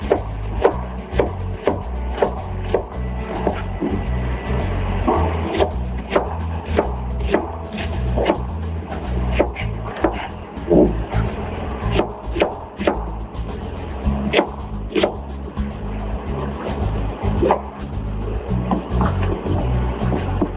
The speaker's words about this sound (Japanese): まずはじめに玉ねぎは5センチの長さにスライスし人参も5センチの長さで千切りにしてください。